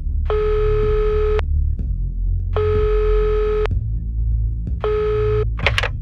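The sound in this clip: A telephone call-connecting tone during a quiz show: three loud, steady, mid-pitched beeps of about a second each with regular gaps, over a low constant hum. The third beep is cut short and followed by a brief noisy burst.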